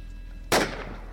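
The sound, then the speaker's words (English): A soldier opens fire again during a wartime shooting, heard as a single sharp, loud gunshot crack. The crack has a short, decaying tail over a steady low hum. “And then one of the other soldiers starts firing again.”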